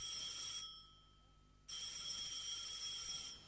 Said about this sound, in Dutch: Een telefoon, riep Willemsen.